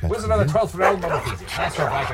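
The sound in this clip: Puppies bark and yip in short bursts, mixed in with excited people talking and cooing at them.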